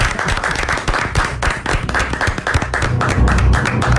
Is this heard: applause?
yes